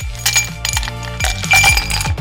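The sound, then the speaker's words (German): Ice cubes drop into a glass in a quick series of bright clinks and rattles at irregular intervals, with a few sharper knocks among them. “Auf die Eiswürfel, die in ein Glas reinfallen.”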